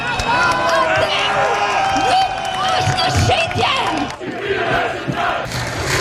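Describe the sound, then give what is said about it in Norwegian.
Loud crowd of protesters in Tirana, Albania, shouting and chanting against a luxury resort planned in a coastal nature reserve. Many voices overlap in a dense, continuous roar that stays steady throughout. “Folk protesterer, sånn høres det ut,”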